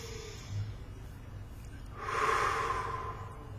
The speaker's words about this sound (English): Take a deep breath.